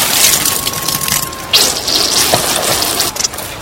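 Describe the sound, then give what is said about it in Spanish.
Liquid splashes as a glass of punch tips over and spills onto a suit, making a steady, hissing wash that runs for nearly four seconds with no voices. “Se dio vuelta el vaso de ponche sobre tu traje.”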